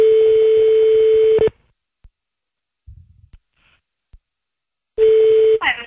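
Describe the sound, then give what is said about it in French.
Telephone ringback tone heard while calling someone back: a loud, steady single-pitch tone lasting about a second and a half, then a near-silent gap with a few faint clicks, then the same tone returning briefly before cutting off. “Attends, on va le rappeler. Et fais croire qu'il est en train de te bouffer. Ouais. Vas-y, on le rappelle.”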